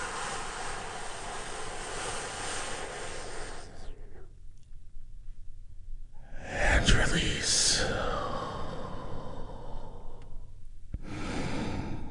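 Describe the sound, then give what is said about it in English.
A big, deep breath taken during a guided relaxation exercise: a long airy inhale, a quiet pause, then a fuller, louder sighing exhale, with another breath starting near the end. “I want you to go ahead and take a big, deep healing breath with me right now. Here we go.”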